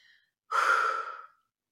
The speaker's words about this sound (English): So the first thing is that you're going to take a big, deep breath.